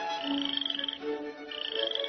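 A frog croaks in fairly faint bursts of rapid, rattling pulses. Higher tonal chirps sit over the pulses, with a short lull in the middle before the croaking resumes.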